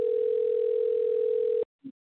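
A steady telephone dial tone hums while calling a guest back. The continuous, even tone cuts off abruptly after about a second and a half, then a brief faint blip follows.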